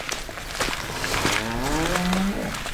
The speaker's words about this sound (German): Wir befinden uns gerade auf dem Weg zum Stall.